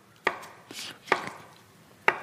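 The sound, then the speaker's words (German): A knife chops dried tofu into bite-sized cubes on a board. Three crisp, sharp strikes land about a second apart, with softer cutting sounds between them. “Und du schneidest so grazil jetzt gerade.”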